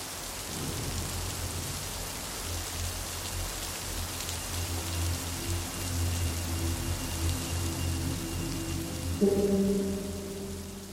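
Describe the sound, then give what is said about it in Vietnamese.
Steady rain falls on a late-September afternoon in Rạch Giá, a dense, even hiss that continues throughout, with low tonal sounds joining near the end. “Rạch Giá, một chiều mưa cuối tháng 9”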